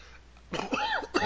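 A person coughs to clear phlegm from the throat: a few rough, wet bursts with a strained, voiced groan between them, rising abruptly out of a quiet background.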